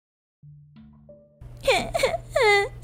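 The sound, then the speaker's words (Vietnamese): A young girl wails and cries beside a woman lying hooked to drip and oxygen lines. After a few sustained low tones, loud, high, wavering cries rise and fall in a few bursts over a steady low hum. “Nó cứ đứng bên cạnh bấu víu lấy người Quyền mà khóc ré lên.”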